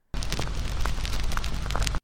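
A loud, sustained blast roars as a young monster fires a heat ray from its horns, a dense rumbling burst that starts abruptly, holds steady for about two seconds and cuts off sharply.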